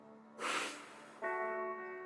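A person exhales one short, airy breath during a guided breathing exercise, a soft hissing rush that fades within a moment, followed by a sustained humming harmonic tone.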